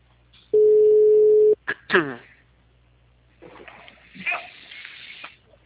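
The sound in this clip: A telephone call's ringing tone sounds once as a steady, mid-pitched tone lasting about a second, then people talk.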